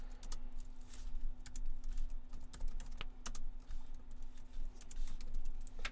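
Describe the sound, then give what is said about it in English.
Typing on a computer keyboard: a rapid, irregular clatter of many key presses in bursts, fairly faint, over a steady low hum. “I can't type like... I can't work like this in these conditions.”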